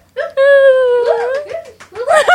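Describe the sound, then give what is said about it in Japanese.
A man, a company president, crying aloud: a sustained, quavering wail that falls and breaks into short sobbing, gasping bursts. “泣いてます。社長が泣いてます。”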